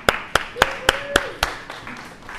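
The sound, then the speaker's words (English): Congregation clapping at a church service, heard as six sharp, evenly spaced claps in a steady rhythm that then stop, followed by a brief rise of noise at the very end. “Can y'all give her a clap?”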